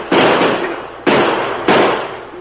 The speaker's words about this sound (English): Shoot at him, boys.